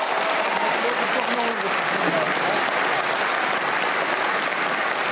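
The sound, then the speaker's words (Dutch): Applause fills a hall at a political party gathering: a dense, steady wash of many hands clapping, loud and sustained throughout, with crowd murmurs and a voice faintly beneath it. “Mag ik een heel hartelijk applaus voor Pieter Omtzigt.”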